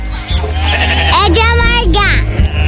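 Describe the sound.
Calves bleating while herders separate them on a cattle farm: loud, wavering, nasal cries rising and falling in pitch, with voices in the background.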